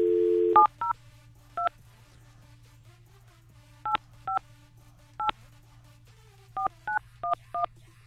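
Telephone number dialed for a call: a brief dial tone, then ten crisp keypad beeps in uneven groups with pauses between them, over a steady low hum.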